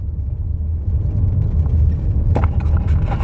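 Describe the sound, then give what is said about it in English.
A brand-new white Nissan X-Trail car driving, with a loud, steady low engine and road rumble throughout and a few brief knocks or rattles near the end. “So I'm just now driving into Moamba to find Domingos on the street.”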